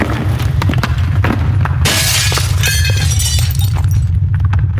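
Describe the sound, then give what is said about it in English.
An earthquake sound effect for the 1906 San Francisco earthquake gives a loud, steady low rumble, with bursts of crashing and shattering debris building through the middle before easing. “But then came the great earthquake of 1906.”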